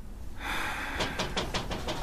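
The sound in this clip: Knocking on a door: a quick, evenly spaced series of firm raps with a steady rhythm, heard over a constant background hiss at a moderate level.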